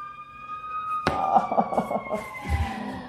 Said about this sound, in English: You can hear the sirens outside.